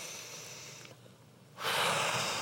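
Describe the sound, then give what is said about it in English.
A deep breath is heard as a soft airy rush that gives way to a long, loud breathy whoosh of air. No voice is heard. “I want you to take 3 deep breaths like this.”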